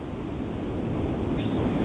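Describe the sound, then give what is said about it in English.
Wind blowing at a caller's location in Canada, buffeting the phone microphone as a steady, loud, low rumbling rush that runs unbroken throughout. “I can hear the wind blowing, Vince. I can tell you're in Canada.”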